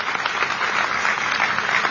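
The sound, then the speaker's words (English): Applause from a crowd after a national anthem performance at a ceremony with the Navy Band and a color guard from the USS Constitution: steady, dense clapping that holds an even level for the whole short stretch. “And really, one more big round of applause for the national anthem. That was a fantastic performance today.”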